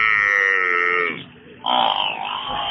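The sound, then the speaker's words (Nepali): A water buffalo calf bellows while following its mother home: one long, steady, tonal low call, a brief dip, then a second louder, rougher bellow that trails off. “कति कराएको यो भैँसीको पाडी, आमाको पछि पछि आइजो न”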